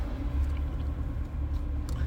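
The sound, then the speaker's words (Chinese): Low, steady rumble of cars stuck in a traffic jam on a road near schools at afternoon dismissal time, a continuous engine drone with no distinct horns or single passing vehicles. “怎么堵车了？ 对啊 ，Mark， 一过三点半，这条路就开始堵车。”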